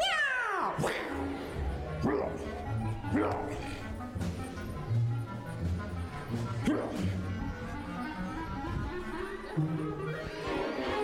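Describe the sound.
Cat meowing several times, each call a bending, wavering cry rising and falling in pitch, spread across about eleven seconds over a steady bed of background sound.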